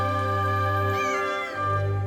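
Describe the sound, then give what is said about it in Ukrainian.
A hungry kitten meows plaintively, a drawn-out tonal cry that briefly dips and wavers midway before steadying again, loud and clear with no talk over it. “А ще киця дуже хотіла їсти. «Допоможіть!» – жалібно нявчала вона.”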